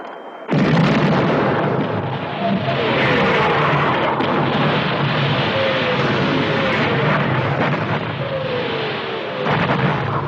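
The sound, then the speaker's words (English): Heavy artillery fire on a battlefield near a damaged bridge: a sudden loud onset, then a sustained roar of rumbling blasts and bursts that barely lets up. “it's pretty clear over here, except for the artillery.”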